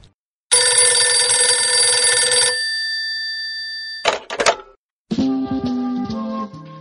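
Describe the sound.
A telephone bell rings loudly for an incoming call in one long sustained burst, followed after a pause by a short rattling clatter and then a further steady tonal passage.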